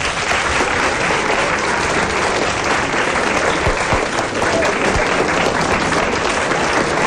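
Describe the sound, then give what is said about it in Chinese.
Audience applause at a live stage show, called for by the host: dense, steady clapping that fills the whole stretch evenly, with no voices over it. “大家给点掌声。”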